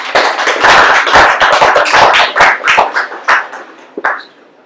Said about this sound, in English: Thank you so much for coming out to IWP, and if we could please give her a warm welcome.